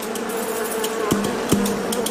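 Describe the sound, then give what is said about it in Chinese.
Bees buzzing in a lotus field in the morning as they beat their wings and leave the hive: a steady, low, continuous drone that holds for the whole clip, with a couple of brief sharper bursts. “当晨光照进莲田，蜜蜂从巢中振翅而出，响应着每一朵莲花的呼唤。”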